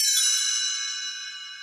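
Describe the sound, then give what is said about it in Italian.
A small bell rings once to signal a page turn, giving a bright, high, shimmering tone that fades slowly. “Quando dovrai voltare pagina, sentirai il campanello suonare così.”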